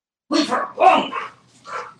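A dog barking in three short, loud barks with brief gaps between them, the last slightly softer than the first two.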